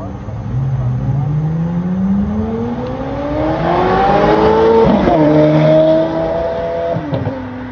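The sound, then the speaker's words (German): A convoy of sports cars pulls away from a traffic light in Singapore, heading toward Marina Bay. Several engines rev loudly together, their overlapping tones climbing steadily in pitch as the cars accelerate. “Und als die Ampel umsprang, setzte sich die Kolonne mit einer einmaligen Soundsymphonie wieder in Gang Richtung Marina Bay.”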